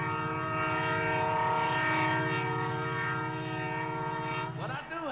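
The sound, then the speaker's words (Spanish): A train passing in the distance across a wide plain sounds its horn in one long, steady, harmonic blast that holds at an even loudness for several seconds. “A lo lejos un tren pasa.”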